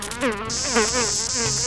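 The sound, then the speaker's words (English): Insects buzzing in a dense, steady drone. A bright, high hiss starts partway through and holds to the end over lower, wavering tones, with no talk. “Shush, you bugs.”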